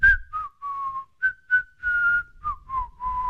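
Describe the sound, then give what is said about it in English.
A cold, quiet whistle blown between the teeth: a string of short and held whistled notes on a steady, fairly high pitch with slight downward slides, rhythmic and alone, with no talk. “A cold, quiet whistle between his teeth”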